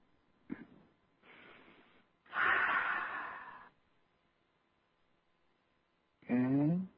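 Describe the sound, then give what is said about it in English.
A deep, loud breath lasting over a second during a guided meditation and healing session, preceded by softer breathing noises and followed, after a quiet pause, by a person speaking. “Take a deep breath.”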